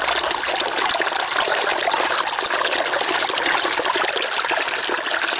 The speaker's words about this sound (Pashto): د بیلابیلو سیلانیانو کوربا سنگلاغ په خپل څنګ کې یو کوچنی سیند هم لري چې سیلانیان ورڅخه زیات خوند اخلي.